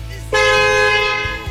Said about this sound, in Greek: Πού είναι η δικιά σου κόρνα, κυρία μου? Α, μπράβο. Αυτή ήταν από το ποδήλατο.